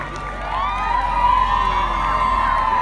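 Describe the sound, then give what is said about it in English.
A school crowd of children cheers and shouts as President Michael D. Higgins arrives at a Gaelscoil in Manorhamilton, County Leitrim. High voices hold sustained whoops and calls in a continuous, loud wash. “President Michael D. Higgins is welcomed by cheers”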